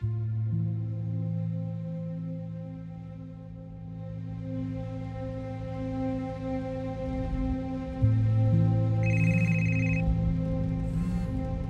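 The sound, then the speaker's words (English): A mobile phone rings on the passenger seat of a car being driven on the road. An electronic ringtone sits over a steady, low, droning hum, and a brighter tone joins in during the later part. “The phone on the passenger seat rang for the 20th time.”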